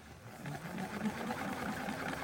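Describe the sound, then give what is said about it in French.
A printer starts up again and spits pages out onto a living-room rug, giving a faint, steady mechanical whirring that runs without a break. “l'imprimante se remet à cracher.”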